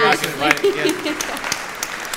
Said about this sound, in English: And this I gotta give Ashley a round of applause.